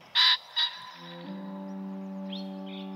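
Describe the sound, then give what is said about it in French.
Pheasant call: two loud, harsh squawks in quick succession, then a steady low musical tone that carries on to the end. “Un faisan.”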